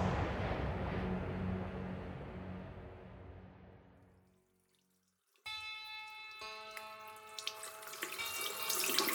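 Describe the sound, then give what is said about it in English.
Bathroom tap running water for washing the face, a steady hissing rush that gradually fades out over about four seconds into silence, before a separate tonal sound begins. “I went to the bathroom to wash my face and clear my head.”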